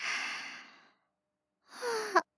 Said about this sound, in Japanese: 大きいあくびね。眠いの？